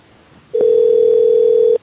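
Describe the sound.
A telephone dial tone before a prank call: one steady, continuous tone that switches on abruptly, holds for just over a second and cuts off cleanly, with no keypad beeps.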